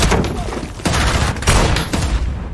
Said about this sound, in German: wird Marley angeschossen, muss mit ansehen, wie seine Frau durch einen Kopfschuss zwischen Leben und Tod schwankt und sein Freund sechsmal in die Seite geschossen wird.